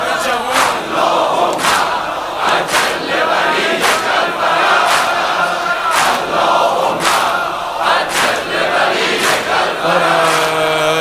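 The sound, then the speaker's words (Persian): A large crowd of young people chants in unison at a religious gathering, with loud massed voices carrying a rhythmic refrain punctuated by regular sharp beats. “این صدای این جمعیت این همه جوون”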